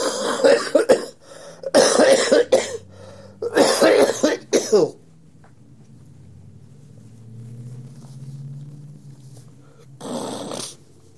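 Harsh coughing in a few loud bursts, some clustered into quick fits, followed by a long low quiet stretch and one last cough near the end.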